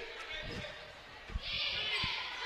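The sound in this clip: Dribbling of a basketball during a game: a few dull, low thuds of the ball bouncing on the court, faint under a commentator's continuous talk.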